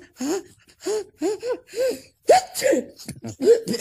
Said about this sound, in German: Und wenn man einen Staub in der Nase hat, dann muss man niesen.